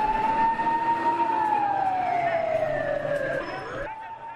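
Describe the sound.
Ambulance sirens respond after an explosion: one loud, continuous wailing tone holds steady, then glides slowly downward before cutting off near the end.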